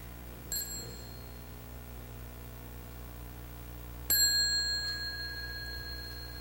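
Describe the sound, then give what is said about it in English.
Two strikes of a small bell rung to dismiss children, each a bright ding with a long ringing decay; the second strike comes a few seconds after the first and is louder. “So when the children hear the small bell, they may like to stand up and bow to the community before they go out and learn.”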